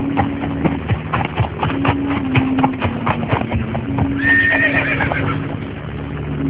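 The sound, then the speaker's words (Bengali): Hooves clip-clop steadily as a horse-drawn carriage approaches a castle, with many quick hoofbeats and a horse whinnying partway through. “হঠাৎ ঘোড়ার গাড়ির আওয়াজে ছুটে জানালার কাছে চলে যায় জোনাথন”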